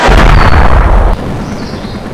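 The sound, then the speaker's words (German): A motorboat is shot at and blows up: a loud, heavy booming blast lasts about a second, then cuts abruptly to a fainter, lingering rumble. “Nick, schieß das Motorboot ab. Wird gemacht, Boss.”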